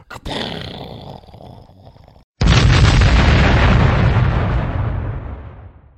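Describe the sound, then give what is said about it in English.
A boom explosion sound effect: a sudden, loud, deep blast that rumbles and slowly fades over several seconds, preceded by a quieter rumbling noise. “Okay, put in like a sound effect. Okay, I'll try on a boom.”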